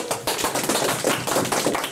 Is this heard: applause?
yes